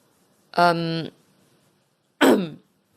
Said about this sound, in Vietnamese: Cô lúng túng rồi hắng giọng.